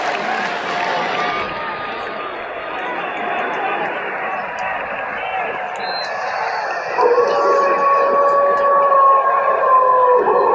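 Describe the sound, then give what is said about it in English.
A pack of wolves howls in long, sustained, overlapping tones over a steady noisy background. A clearer, louder howl stands out in the second half. “Y'all hear those wolves howling? Yes. Do y'all hear a whole pack of wolves howling?”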